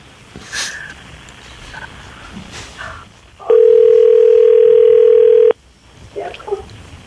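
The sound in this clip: A long, steady telephone ringing tone sounds while a call is placed: a single loud mid-pitched hum lasting about two seconds, with people talking before and after it.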